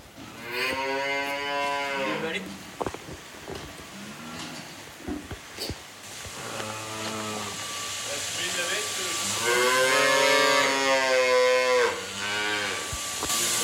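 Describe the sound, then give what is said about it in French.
A calf moos repeatedly on a dairy farm, giving several loud, drawn-out bellowing calls with pauses between them and a few sharp knocks in the gaps. “on va pouvoir aller donner à boire au petit veau”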